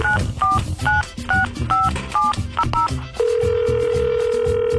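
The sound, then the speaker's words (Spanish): Touch-tone dialing of a telephone number: a quick series of paired DTMF beeps over background music, followed by a steady, unbroken line tone that holds to the end. “Vamos a marcarle, tienes que contestar, tienen que contestar, raza. A ver, marquémosle.”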